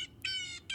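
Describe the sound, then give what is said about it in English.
A bird call: two harsh, high, strongly harmonic calls given alone. The first is long and drawn out, and the second, after a short gap, is cut off at the end. “I'm going to play a better bird call.”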